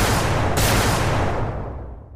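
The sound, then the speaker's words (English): Turbolaser blasts fire from the underside of a hovering craft: a loud, harsh burst of noise with a sharp crack just after it starts, then a broad roar that slowly fades away. “Sanja was doing, a pair of turbolaser blasts blazed outward from the underside of the craft”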